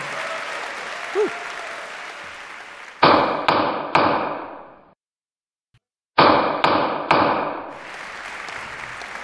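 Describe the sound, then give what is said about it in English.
A judge's gavel strikes in two sets of three sharp, loud knocks, each ringing briefly before decaying, with a short stretch of silence between the sets and faint background noise before the first blows. “This is the sound of a gavel.”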